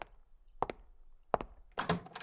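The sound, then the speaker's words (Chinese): Knocking on a door, faint and dull, arrives as a few short raps in close pairs separated by quiet gaps, ending in a quicker cluster of taps. “谁在敲门啊？是爸妈回来了吗？”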